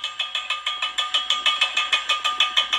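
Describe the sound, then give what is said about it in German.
Gas rattling through the rusty production pipes of a gas well in Lower Saxony makes a rapid, evenly spaced metallic clatter like empty cans knocking, a brisk regular pulse with no voices. “Was sich anhört wie das Klappern von leeren Dosen, kommt mutmaßlich vom Gas. Das strömt offensichtlich noch immer durch die rostigen Förderrohre,”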